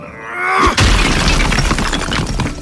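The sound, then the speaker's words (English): A brick-and-mortar chimney is smashed and crumbles from the top down: a brief rising whoosh gives way to one loud, heavy impact, then a dense rumbling spill of breaking masonry and debris that stays loud to the end. “My hand cut cleanly through the brick and mortar of the chimney. It felt like cotton. I cheered as the crumbling smokestack disintegrated from the top down,”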